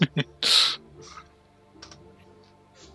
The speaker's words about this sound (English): Sorry, I actually have to type out my rules, unlike you guys who can just press keys.